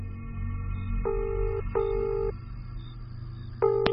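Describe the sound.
Telephone tones as a call is placed in an audio drama: three bursts of steady electronic tone, two longer ones close together and a short one at the end, over a low hum.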